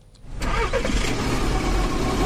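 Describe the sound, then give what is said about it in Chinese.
A car engine starts in the early morning: a short quiet lead-in, then the engine catches and turns over. It settles into a loud, steady, low rumble that runs to the end with no talk. “清晨，成都市农林科学院工程师刘季开车从成都市区赶往百余公里外的蒲江县”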